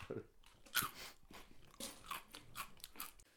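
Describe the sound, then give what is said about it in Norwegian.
People eating crunchy snacks on a snack break, a quiet run of crisp, irregular crunches mixed with chewing. “Snackpause. Og så kommer det sånn... Nei, spis, spis, spis.”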